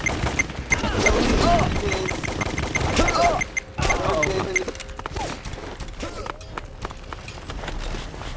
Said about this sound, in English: That's a room for the combat. That's somebody gonna shoot at me. That's a big ass gun that I don't wanna use.